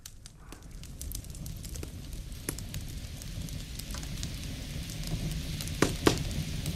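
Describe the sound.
Crackling fire: a steady soft hiss broken by scattered small pops and snaps, with a couple of sharper, louder crackles near the end.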